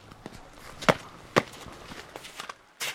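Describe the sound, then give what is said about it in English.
Footsteps on frosty black tarmac in snow: a few crisp, scuffing steps, two of them sharper and louder, with fainter shuffles between and a brighter scrape near the end. “I step out onto the frosty black tarmac.”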